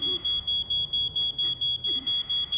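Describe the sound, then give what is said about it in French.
An alarm clock beside an elderly man's bed beeps on and on. A thin, high-pitched electronic tone repeats at a quick, even rhythm with many identical pulses, fairly faint over a low background hum. “Son cadran sonne parce qu'il a manqué d'électricité, je pense. Donc, l'alarme sonne ici.”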